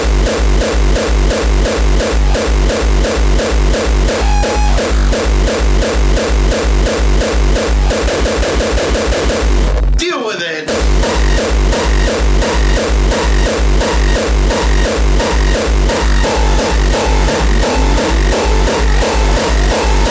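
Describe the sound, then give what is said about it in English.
A heavily distorted drum machine pounds out a steady, fast beat of booming low kicks under harsh, buzzing noise. A quick roll comes just before a brief break near the middle, and then the pattern resumes. “Does your drum machine sound like this? The amount of distortionation that's happening.”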